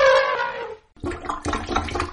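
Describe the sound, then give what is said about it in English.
A plunger works a clogged drain with wet gurgling and sloshing. A drawn-out gurgle fades to a short pause, then several choppy, watery bursts follow. “I've been plunging this thing for an hour. I give up.”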